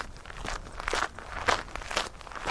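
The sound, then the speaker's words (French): Footsteps on a coastal cliff-top hiking trail leading from Sauzon toward the Pointe des Poulains, a steady walking rhythm of about two crisp steps per second, moderately loud with a slight gritty crunch. “Nous quittons Sauzon et son petit port et ses façades colorées par le sentier de grande randonnée en direction de la pointe des Poulains.”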